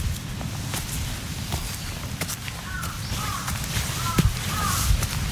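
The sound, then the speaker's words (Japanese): Crow cawing, a few harsh calls in the second half, over steady wind noise and footsteps on the ground. “カラスも鳴いてますけど、”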